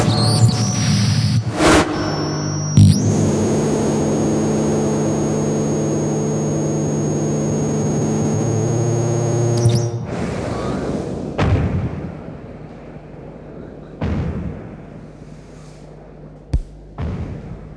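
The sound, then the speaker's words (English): A 90mm tank gun fired from an M48A3 tank produces loud booming blasts, then a long, heavy rumbling roar that cuts off abruptly, followed by a few more sharp, isolated reports. “The 90mm tank gun, fired from an M48A3 tank, known affectionately as the General Patton.”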